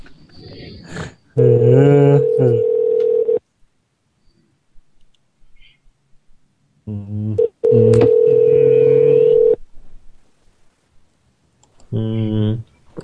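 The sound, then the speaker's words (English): Telephone dialing and ringing: two long, steady tonal rings about two seconds each, separated by a quiet stretch with faint clicks, with shorter tonal bursts around them. “I like the part of the show where the phones ring.”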